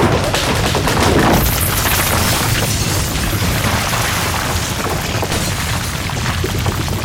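A burning car smashes through toll booths on a bridge, producing a continuous, loud barrage of crashing, booming and rumbling impacts throughout.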